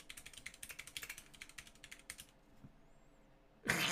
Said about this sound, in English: Okay, do you want me to type it without spelling a word wrong?